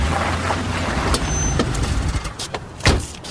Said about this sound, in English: You drove like 10 feet. I could have parked it there myself.